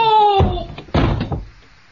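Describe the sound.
A door is slammed shut during a scuffle. A short shouted voice is followed by a few heavy bangs and thuds, and the sound then dies away.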